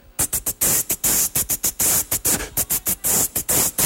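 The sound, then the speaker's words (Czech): Beatboxed hi-hat made with the mouth: many short, hissy bursts of breath noise in a quick, regular rhythm, some clipped short and some drawn out, bright and airy, alone without speech. “A třetí základní zvuk je zvuk hajitky. Ta zní takto.”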